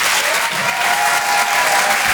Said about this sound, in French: Faites du bruit, s'il vous plaît, pour Laurent Barra.